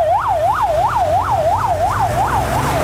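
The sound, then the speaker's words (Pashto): An ambulance siren wails rapidly up and down in pitch, eight quick loud cycles in a steady rhythm over a low engine rumble, as ambulances stand by after deadly floods in Parwan province. “د مړو او ټپیانو لیږدولو ته امبولانسونه تیار دي.”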